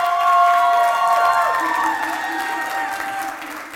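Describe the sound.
Applause and cheering from a church audience at Encounter Church in Atlanta welcoming Pastor Antoine to the stage: loud, dense clapping with a few voices calling out, easing slightly toward the end.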